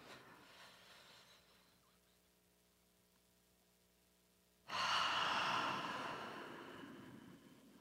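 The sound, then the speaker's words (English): A slow, deep breath in during a breathing exercise: near quiet at first, then an abrupt, loud, breathy rush of air that slowly fades toward the end. “And start from all the way down and breathe in for five.”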